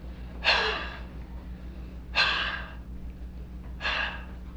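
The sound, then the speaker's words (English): Deep, full breaths taken and let out, heard as three airy, breathy rushes spaced evenly apart. Each starts abruptly and fades, over a steady low hum. “What I've discovered is that if I take a good full breath of air and exhale,”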